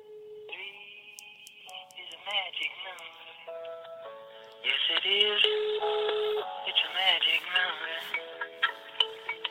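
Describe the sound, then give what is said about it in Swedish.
A telephone call placed on speakerphone comes through as narrow, tinny line audio, with tones and voices over the phone that grow louder partway through. “Ska vi ringa honom live här och fråga? Ja, det skulle kunna vara ett inslag. Det måste vara det senaste ringda samtalet här. Ska vi ta på högtalartelefon?”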